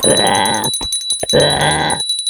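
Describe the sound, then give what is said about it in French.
A small bell rings out twice in bright, high metallic bursts with a short pause between them. Each ring sustains for under a second. “La clochette de Saint-Colédoc?”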